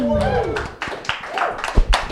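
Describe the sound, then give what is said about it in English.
Tepid, sparse clapping from a comedy show audience as a guest walks onto the stage. A voice speaks at the start, then a thin scatter of separate claps follows. “Tepid applause.”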